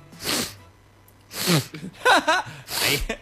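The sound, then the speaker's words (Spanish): A person's voice imitates a woman blowing her nose, making three forceful, breathy nasal blasts spread across the moment, with voiced, gasping sounds between them. “Y después hubo un rato largo de la señora que se había terminado de sonar los mocos, así.”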